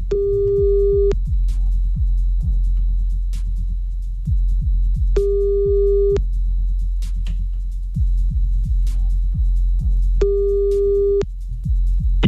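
A telephone ringback tone sounds while a caller rings back after a hang-up: three steady mid-pitched beeps, each about a second long and spaced several seconds apart, over a low pulsing background.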